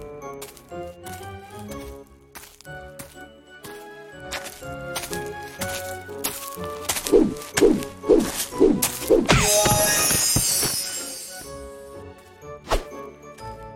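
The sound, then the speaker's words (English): Punches landing in a classic-mode arcade video game where accuracy earns no bonus: many quick, sharp thwacks over ringing game tones, growing denser toward the middle, then a burst of crashing noise. “You don't get bonuses based on accuracy, so you can punch, and punch.”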